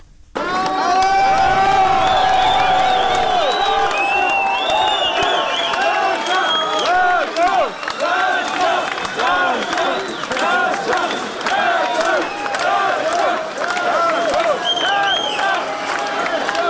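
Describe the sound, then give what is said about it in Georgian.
Fans cheer and shout to welcome Georgian Olympians at Tbilisi airport at night: a loud, sustained crowd roar of many overlapping excited voices and yells that bursts in after a brief quiet start and holds throughout. “თბილისის აეროპორტში ქართველ ოლიმპიელებს გულშემატკივრები ოვაციებით და ხმაურით დახვდნენ.”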